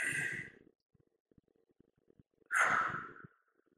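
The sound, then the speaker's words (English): A slow, deep breath, an inhale and an exhale, heard as two long, airy rushes of breath with a quiet pause between them. The second rush is louder and fuller, and no words are spoken. “like that was a simple breath. An inhale and an exhale.”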